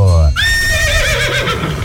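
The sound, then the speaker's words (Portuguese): A horse neighs loudly in a strained, high-pitched whinny that wavers and gradually slides lower, carried over a low rumble. “tá correndo atrás do cavalo”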